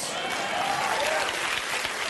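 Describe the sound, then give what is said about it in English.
Audience applauding, a steady, dense wash of clapping that continues evenly throughout without a break. “Dickish white guys applauding. I like that.”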